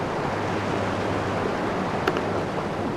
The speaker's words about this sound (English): Leonie's found a lip of stone on a rock platform on the shoreline, and the tide is literally almost coming up to her feet. It's about 2 meters away.